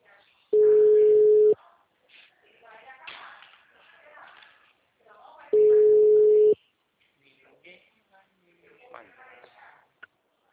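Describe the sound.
A telephone tone sounds after a dropped call as two long, steady beeps of about a second each, several seconds apart, with a voice talking quietly between them.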